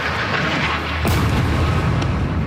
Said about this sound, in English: Israeli airstrikes, like this one on a mosque and refugee camp this week, have continued regularly